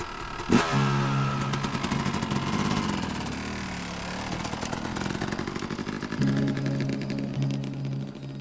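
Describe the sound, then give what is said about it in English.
A motorcycle is started: a sharp catch, then a steady engine rumble that swells and dips with revving, staying loud throughout without voices. “He climbed onto the bike, started it.”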